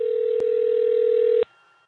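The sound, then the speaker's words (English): A telephone dial tone hums steadily at one loud pitch, marked by a click early on. A second click ends it abruptly after about a second and a half, leaving faint residual noise. “All right, we're going to dial that number right now.”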